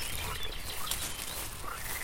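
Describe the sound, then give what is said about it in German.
Frogs croak at a pond in spring during their breeding season, forming a dense, continuous, fairly faint chorus of rough overlapping calls with no single voice standing out. “Die Frösche haben mit ihrem lauten Quaken und der Fortpflanzung begonnen. Diese Dauerbeschallung lullt mich richtig gut ein.”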